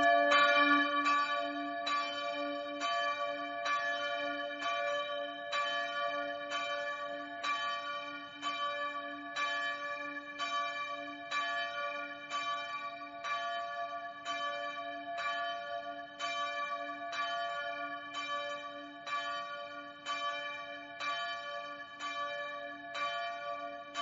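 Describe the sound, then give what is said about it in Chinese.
A church bell rings steadily with many evenly spaced strokes, each one a bright, resonant clang whose overtones hang and overlap into the next, sounding alone without voices. “当教堂的敲钟声响起了，就是要告知和提醒人敬拜的时间已到”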